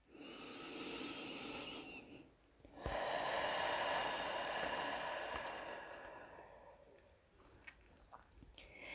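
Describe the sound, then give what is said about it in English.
A slow exhale through pursed lips, heard as a faint, steady airy hiss that runs long and evenly, with a short break near the start. There is no talking. “Exhale through pursed lips until all the air has been released.”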